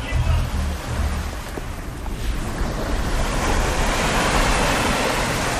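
Atlantic Ocean surf at a small coastal town makes a steady, broad wash of breaking waves mixed with gusty wind noise, swelling slightly louder toward the end.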